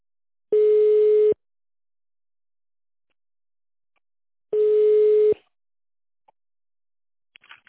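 A telephone ringback tone sounds while a call is being transferred to a specialist: two long, steady, mid-pitched beeps about four seconds apart, with near silence between them and a few faint clicks at the end.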